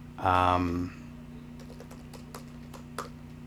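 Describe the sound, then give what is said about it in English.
Faint keystrokes on a computer keyboard come as a few light, scattered taps after a short voiced sound at the start. The tapping stays quiet against a low background hum. “Hold on, now I gotta Google it, because I refuse. I typed monster with eyes.”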